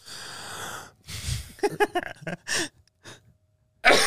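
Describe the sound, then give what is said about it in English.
A person vocally imitates a cough: a long, noisy sharp breath in comes first, then a few short voiced bursts and a final harsh, breathy cough-like blast. “she breathes in every time she's about to cough. And so instead of just going, she goes,”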